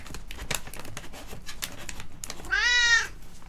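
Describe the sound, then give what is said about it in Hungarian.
A cat gives a single drawn-out, clear meow near the end. Before it come a series of sharp, quiet clicking taps, and no one talks. “Szia, cica.”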